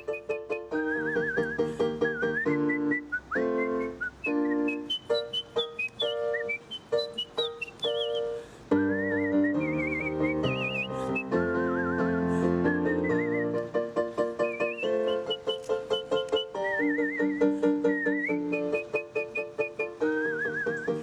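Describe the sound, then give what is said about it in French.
Someone whistling an opera aria, a clear, high, agile melody of quick runs and held notes that continues steadily and loudly alone throughout. “si vous arrivez à échapper à l'apprenti Reine de la Nuit, celui qui sifflote ou celle qui sifflote”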